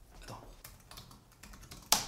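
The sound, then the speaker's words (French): Typing a search on a computer keyboard: a few soft, irregular key taps followed by one sharper, louder keystroke at the end. “Moi, dès qu'on me pose une question, je tape sur Google.”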